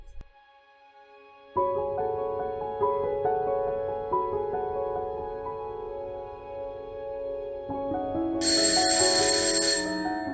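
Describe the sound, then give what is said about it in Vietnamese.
An electronic alarm rings from a small clock on a table. It plays a steady, repeating melodic pattern of tones that continues without pause, and a brighter, harsher layer joins near the end. “Tiếng chuông báo thức từ chiếc đồng hồ nhỏ đặt trên bàn reo vang, báo hiệu một ngày mới đã bắt đầu.”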